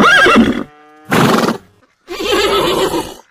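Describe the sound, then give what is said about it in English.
Horses on a farm neighing: three loud whinnies with short silent gaps between them, the first with a quavering pitch and the last the longest, with no voices. “Yes, that was the sound of some of the horses here on the farm.”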